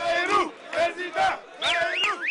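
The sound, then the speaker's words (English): A rally crowd chanting in unison for presidential candidate Bayrou in a French suburb, loud rhythmic bursts of massed voices shouting a repeated slogan. “The crowd begins chanting Bayrou for president.”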